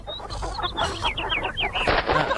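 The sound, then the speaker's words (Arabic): Chickens clucking in a hen coop, many overlapping clucks mixed with high, quick chirping calls, continuous and fairly loud throughout. “يوم آخر يمر على الدجاجات في الخم.”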